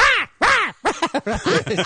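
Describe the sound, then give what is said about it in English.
A human voice imitates a blue jay's harsh call: two drawn-out squawks, then a quick run of shorter, choppier squawks, loud and with no other sound. “This bird comes and peers at me with his beady little bird eyes. Really? He sits outside the window for an hour at a time and just looks at me and goes,”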